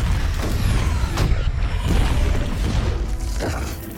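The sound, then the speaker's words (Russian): A massive explosion as a giant alien brain is destroyed with enormous force: a loud, sustained low roar and rumble with broad crackling noise that fills the whole clip and never lets up. “Таймер отсчитывает последние секунды, и мозг Эго гибнет во взрыве невероятной мощи.”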